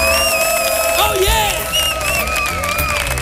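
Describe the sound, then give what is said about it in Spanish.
Studio audience cheering in an auditorium at a weekly recording: loud, brief crowd noise of shouts and whoops with a steady roar underneath, and one voice calling out above it. “para nuestro público, que suena así de fuerte su aplauso.”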